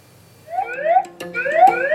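An electronic alarm sounds in a hospital emergency department, signalling a urological emergency: two loud, bright tones that each sweep steadily upward in pitch, one after the other, with no talking.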